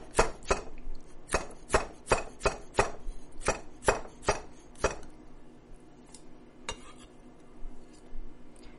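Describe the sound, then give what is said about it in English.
Knife chopping cucumber into tiny triangle bite-size pieces for a salad: many crisp, sharp strokes in a fairly steady rhythm, thinning out to a few scattered cuts near the end. “I have these, basically have these tiny little triangle bite sizes of cucumber that are going in. Same bowl where I made the dressing.”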